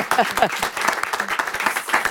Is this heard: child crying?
no